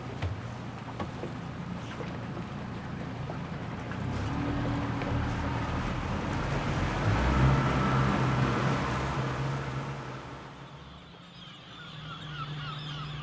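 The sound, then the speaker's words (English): A boat rides out to an island with a continuous engine drone and rushing water. The sound swells through the middle of the ride, then eases and dips before picking up again. “So Alice, let's get on that boat, head out to meet all the residents of this amazing island, avian and human.”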